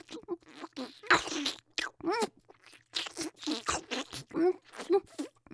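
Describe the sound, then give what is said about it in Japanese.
Crunchy bites and chewing of food come as many short, crisp bursts in an uneven rhythm, fairly quiet, with faint voiced sounds between some of them. “じゃあそろそろ食べちゃうね。いただきまーす。”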